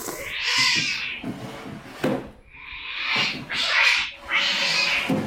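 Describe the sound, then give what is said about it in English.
A cat yowls in several long, harsh caterwauls separated by short gaps. The cries are loud and strained, with no voices in between. “Get off me, you feckless feline.”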